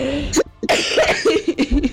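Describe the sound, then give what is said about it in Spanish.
Coughing from a person, a few rough, throaty bursts that come in quick succession after a brief first one, with short gaps between them. “Ay, que me da la risa y me da la tos.”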